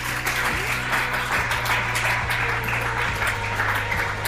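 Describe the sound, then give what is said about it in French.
An audience applauds and acclaims the Lord during a church service: many hands clap in a busy, continuous patter at fairly loud level, with a steady low hum running underneath. “Et quelqu'un acclame le Seigneur.”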